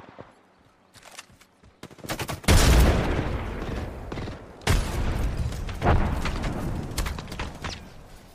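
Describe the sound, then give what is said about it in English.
Gunfire in the video game Apex Legends starts with faint clicks, then comes in a few loud bursts of rapid shots spaced apart, with booming impacts. “Why did you shoot us from there?”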